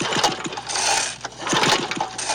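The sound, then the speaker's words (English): A lawn mower engine struggles to start, sputtering with a rough, rattling mechanical drone. Uneven bursts of chugging swell and fade twice. No voices. “Don't get yourself all worked up over trying to mow your lawn.”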